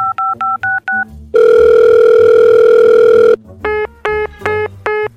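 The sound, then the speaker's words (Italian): A telephone call dialled and hung up: five short keypad tones in a quick even rhythm, then a loud steady line tone lasting about two seconds, then six more keypad tones. “Ha appena riattaccato la chiamata.”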